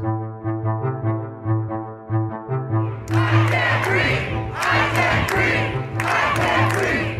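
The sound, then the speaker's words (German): Crowd of protesters in the United States demanding justice for George Floyd, a rhythmic group chant pulsing steadily at first, then giving way to loud bursts of mass shouting. “Tausende Menschen protestieren. Überall in den Vereinigten Staaten. Sie protestieren laut, aber sie protestieren meist friedlich.”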